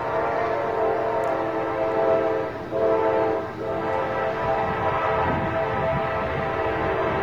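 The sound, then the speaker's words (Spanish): A train draws near with its horn blaring, a loud, sustained, harmonically rich tone held almost unbroken over a heavy rail rumble, dipping briefly twice before carrying on. “Este es un tren que al final vemos cómo se acerca y crea el efecto Doppler, ahí va.”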